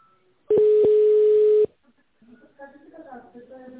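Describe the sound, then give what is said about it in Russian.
A telephone keypad tone while dialing an extension: one steady mid-pitched beep of about a second with small clicks at its edges, then a voice begins talking. “Наберите добавочный номер.”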